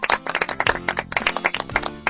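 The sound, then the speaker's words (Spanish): Children clapping for the actors after a Bible story performance, a quick run of many separate, sharp claps with an uneven rhythm and brief gaps between bursts. “Niños, por favor, un aplauso para los actores.”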